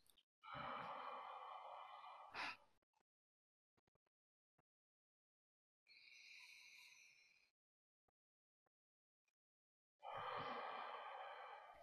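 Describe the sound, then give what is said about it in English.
Slow, deep breaths drawn in and let out, three long airy breath sounds separated by quiet pauses, with no talk around them. “just to take a few deep breaths in and out”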